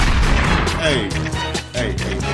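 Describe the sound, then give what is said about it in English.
A man's voice imitates machine-gun fire with a rapid string of loud, percussive mouth bursts and rattling vocal sounds that repeat in quick succession. “Let's start busting shots. Oh, I gotta be a machine gun now.”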